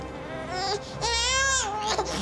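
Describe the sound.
A baby girl crying: a short wail followed by a longer, louder cry with a wavering pitch, sounding strained and tearful.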